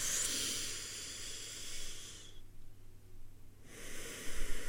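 A deep breath in, heard as a long, airy hiss of drawn air that stops for a brief quiet pause before another breathy rush of air begins, fairly soft and with no talking.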